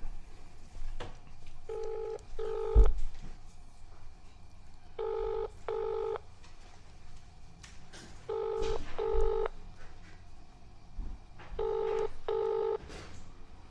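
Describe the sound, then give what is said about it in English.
Touch-tone beeps of a telephone number being dialed: eight short electronic tones in four evenly spaced pairs, clear over a faint, low background hum. “Hang on a sec while we dial her.”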